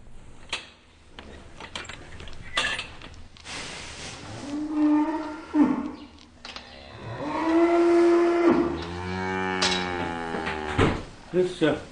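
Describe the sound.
Cattle lowing in an old farm barn, with a few long, low, drawn-out moos, the later ones sliding downward, mixed with people talking.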